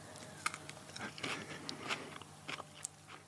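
Faint crisp crunches of someone biting into and chewing a fresh leaf from a plant with red-brown stems and silvery-green leaves. Many small irregular crackles sound alone.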